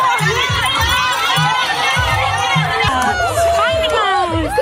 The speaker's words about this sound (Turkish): Bir golf sahasında kurulan parkurda yüze aşkın Dachshund sahiplerinin tezahüratları eşliğinde yarıştı.